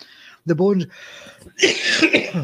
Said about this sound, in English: Now, I got this tickly cough about a couple of days ago, just can't shake it.